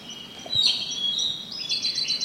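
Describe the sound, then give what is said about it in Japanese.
Song of a Siberian blue robin: a faint, thin, high-pitched warble of sustained notes and quick repeated chirps, heard alone over a quiet background. “これ今コルリンの声ですかね。”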